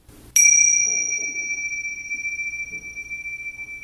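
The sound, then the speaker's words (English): A meditation chime gives a single bright strike that rings with a clear, sustained high tone and fades slowly over several seconds. “even if it's a simple sound like the chime, I'm going to do a little bit of”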